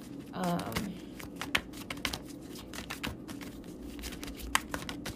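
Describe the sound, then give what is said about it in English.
A card drawn from a deck during a spiritual card reading, heard as a run of many quick, crisp clicks and flicks. A brief voice sounds near the start. “I'm going to pull one more card and see if Spirit has any other messages for us today.”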